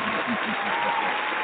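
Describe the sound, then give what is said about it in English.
An audience applauds with a dense, even wash of clapping, and a voice is briefly heard over it near the start. “let's give everybody an applause and thank the”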